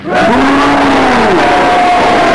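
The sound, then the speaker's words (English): Loud booing from a game-show audience asked to boo together, many voices merging into one sustained low drone that sags slightly in pitch as it carries on. “Boo! I decide the boos have it.”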